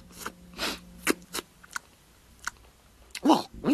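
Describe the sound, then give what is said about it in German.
Wet lip-smacking and slurping mouth noises arrive in a few irregular bursts, some carrying a brief voiced sound, with quiet gaps between them. “Schlabber- und Schmatzgeräusche haben die auch amüsiert.”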